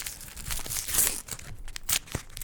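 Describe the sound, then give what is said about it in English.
Paper wrap being torn off a small Underberg bitters bottle, a quiet run of crinkly tearing rustles with a few sharper crunches. “We have our Underbergs ready. Tear it off.”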